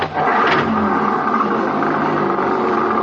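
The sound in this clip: Engine of a 1956 Chevy roars as the car speeds off down the road in pursuit of a crook. The sound is loud, continuous and rough, with a strong rumble and hiss throughout.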